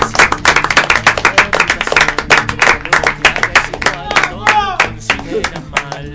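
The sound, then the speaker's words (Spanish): Loud applause from a small group in a radio studio at the close of a final program, rapid overlapping claps with voices and a shout mixed in, thinning out toward the end. “Y bueno, y gracias y un aplauso creo que corresponde, ¿no? ¡Vamos!”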